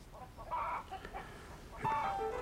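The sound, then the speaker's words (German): Small chickens cluck in faint, short bursts, with two clusters of nasal clucking separated by a quieter stretch. “Du, deine kleinen Hühner rücken ab.”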